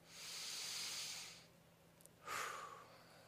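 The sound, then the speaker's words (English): A deep breath is drawn in as a long, soft, airy hiss, followed after a short gap by a shorter exhale with a faint whistling edge. The whole sound is quiet, with no speech. “let's take a deep breath. Exhale. One more time.”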